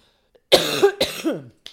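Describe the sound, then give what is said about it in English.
Someone choking on cheese coughs twice in hoarse, throaty bursts, with a faint short cough at the end. “I'm choking on the cheese. Excuse me.”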